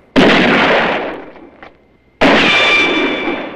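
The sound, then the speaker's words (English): Gunshots traded in a shootout among boulders near a cemetery: two loud, sharp blasts about two seconds apart, each trailing off in a long, rumbling decay. “The opposing factions trade shots.”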